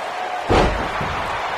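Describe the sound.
A heavy slam of a wrestler onto the ring mat during a pro wrestling match: one loud, deep thud about half a second in, ringing briefly over a steady roar of crowd noise.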